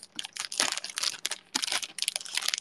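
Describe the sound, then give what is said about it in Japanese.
Crisp crinkling and rustling as a thank-you sticker is peeled off and pressed onto gift wrapping, in a few uneven bursts of papery crackle with brief pauses between. “サンキューシールを貼って”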